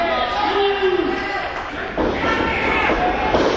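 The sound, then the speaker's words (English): A wrestler's chokeslam into a backbreaker during a wrestling match, a heavy dull slam and thud landing beneath steady commentary and crowd noise. “choke slam into a backbreaker”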